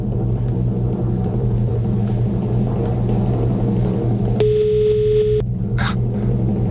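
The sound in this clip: Ringing tone of an outgoing phone call: one steady, even tone lasting about a second rises clearly above a constant low hum, then stops.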